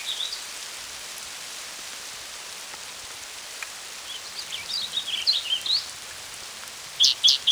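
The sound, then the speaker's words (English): A hailstorm in progress: dense, continuous hissing patter of falling ice and rain, with a few thin bird chirps coming through in the later seconds. “Hailstorm in progress.”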